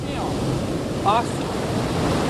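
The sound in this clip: Waves break on a rough beach where wet sand is scooped and washed, making a steady, full-bodied roar of surf and rushing water that stays fairly even throughout, with a brief swell in the middle.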